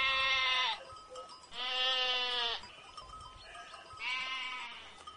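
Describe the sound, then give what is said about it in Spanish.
Goat bleating in three loud, wavering bleats separated by short pauses, the middle one the longest, with a faint low background between them and no voices. “me gustaría pasar un chivo. ¿Me lo permitís? Pero por supuesto. Bueno, acá voy con mi chivo.”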